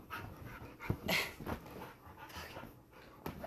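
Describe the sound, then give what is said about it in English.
A dog pants and whimpers in quick, breathy, irregular bursts, mostly faint, with a few sharper puffs and soft whines and no talk. “Get down. Sorry, y'all. My dog is literally a holy terror.”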